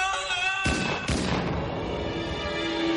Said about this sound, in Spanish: El caso es que el oficial disparó accidentalmente en contra de aquel niño, pensando que era un ladrón o algo por el estilo.